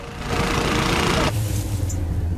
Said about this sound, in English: A tractor motors slowly through the meadow, its mighty tires crushing everything in its path.